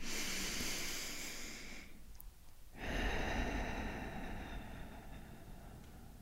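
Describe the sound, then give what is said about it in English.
A deep breath drawn in through the nose, then a short pause before a long airy exhale out through the mouth, soft and hissing, with no talk. “let's take a deep breath in through our nose and out through our mouth.”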